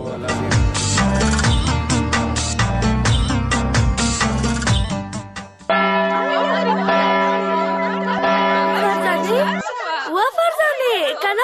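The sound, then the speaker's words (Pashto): A school bell rings for recess: steady, sustained ringing tones follow a loud stretch of music, then fade as voices come in near the end. “دا مې ځکه وویل چې د تفریح زنګ دې وانه ولیده هدې ټولې نجونې ووتلې”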